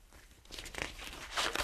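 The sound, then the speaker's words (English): Tall sheets of paper from a symphony score are leafed through by hand, giving a few crisp rustling and crinkling sweeps that grow louder toward the end, with no talk. “Schoenberg leafs through tall sheets of paper, each line an instrument, and he makes quick notations in pencil.”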